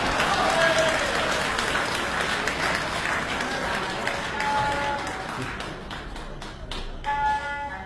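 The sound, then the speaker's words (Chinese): Audience applause at a Beijing traditional opera and folk performance: dense, sustained clapping that thins out toward the end, with voices mixed in. “谢谢大家掌声。”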